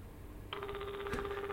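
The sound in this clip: Ringback tone of an outgoing telephone call: a faint, steady low buzzing tone with a fast warbling pulse begins abruptly and keeps sounding.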